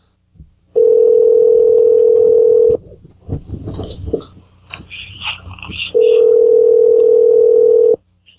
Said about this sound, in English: I'm going to call her back.